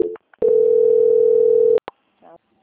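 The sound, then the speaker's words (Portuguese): A steady telephone tone sounds while a call is being transferred: one loud, held beep of about a second and a half, with brief clicks just before and after it. “Só um momentinho que eu vou transferir aqui. Transferência.”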